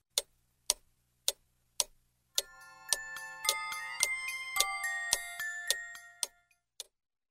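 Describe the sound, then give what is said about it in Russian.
A large clock ticks in slow, even beats, then a bright chiming melody plays over the continuing ticks before it fades, and a few more lone ticks follow. “Подошла к большим часам, и они заиграли чуть-чуть громче.”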